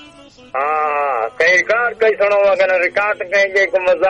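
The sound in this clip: A goat bleats once in a long, wavering, nasal cry of about three-quarters of a second, followed by people talking.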